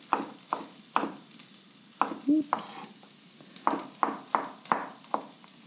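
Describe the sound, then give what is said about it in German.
A knife slices kohlrabi stems into rounds, giving a series of crisp, sharp cutting taps. The taps are irregularly spaced, with a short pause midway, and stand alone at a fairly soft level. “Jetzt schneiden wir die Stiele mal in Scheiben.”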